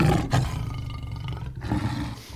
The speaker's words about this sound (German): Löwe.